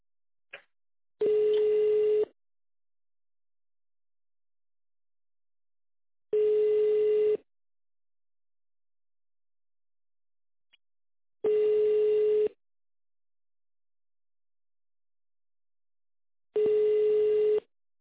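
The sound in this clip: Ringback tone of an outgoing telephone call: four steady, mid-pitched tones, each about a second long and evenly spaced several seconds apart, with silence between them and a faint click or two.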